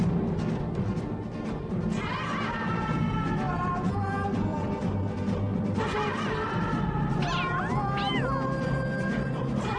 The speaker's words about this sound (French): Seulement voilà, le chat est un gros con. Le chat est un gros con.